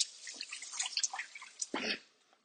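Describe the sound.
Water drips and splashes as a man washes his hands: a faint scatter of light patters and trickles, then a fuller splash just before it fades out.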